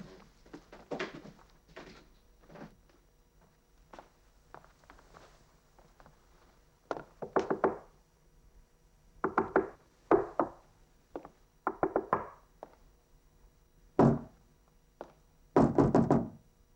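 Someone knocks on a door in many irregular bursts of sharp raps, some single and some in quick clusters, with quiet gaps between. The knocks grow louder toward the end.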